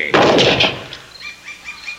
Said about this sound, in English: Still take aim and fire, never doubt. Well, what have I got to lose? That's the spirit I like. Fire away!